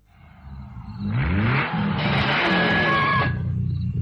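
A Ferrari sports car accelerating: the engine note swells and climbs in pitch as it revs up, then settles into a loud, broad rushing roar that cuts off shortly before the end.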